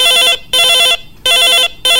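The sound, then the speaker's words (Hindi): An incoming call rings on a radio phone-in line: a loud electronic warbling telephone tone in paired bursts, ring-ring, pause, ring-ring, with the last burst cut off. “हमर phone के line हर खुल गए है, तो संगी हो उठावत हवा मैं ये आप मन के पहली फोन ला।”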